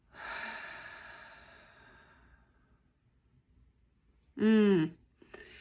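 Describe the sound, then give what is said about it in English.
A deep guided breath, in through the nose and out slowly through the mouth, heard as a long, soft, airy rush that fades gradually over a couple of seconds, followed after a quiet pause by a short voiced tone. “Let's take a deep breath in together through our nose and letting it out slowly through the mouth.”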